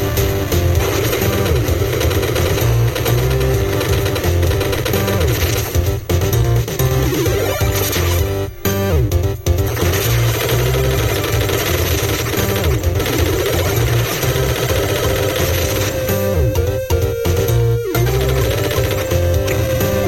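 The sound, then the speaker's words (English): Chiptune-style music from a retro run-and-gun shooter in the style of Contra plays alongside constant gunfire and action sound effects. The result is a dense, loud, unbroken wall of sound lasting about twenty seconds, with no talking. “you guys have to hear this music and how well it represents the original Contra. So I'm going to play a little bit of the music for you. You'll hear some of the shooting and sound effects as well.”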